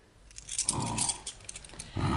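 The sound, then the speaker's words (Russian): Keys being handed over give a brief, soft metallic jangle and clink, faint and short, with some low rustling beneath. “Вот ключи.”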